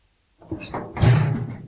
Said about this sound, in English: Opening the small mailbox reveals a leaflet.